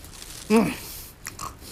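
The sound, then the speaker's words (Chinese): A crunchy bite into a Yunnan flower cake (xianhua bing), one loud bite with a brief vocal murmur, followed by faint chewing sounds. “孟莹刚刚买了2斤鲜花饼，吃吧吃吧，先堵住你这张嘴。”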